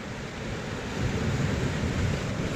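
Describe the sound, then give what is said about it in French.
Waves and wind on a beach foreshore at low tide in Finistère, Brittany: a faint, steady wash of surf blended with a low wind rumble, continuous and without talk. “Nous sommes en Bretagne, dans le Finistère, précisément sur l'estran d'une plage de Lokirec. La mer s'est retirée il y a une heure environ.”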